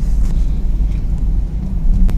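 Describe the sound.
Steady low rumble inside a car while driving, a continuous loud drone with faint wind noise and a few brief, soft clicks.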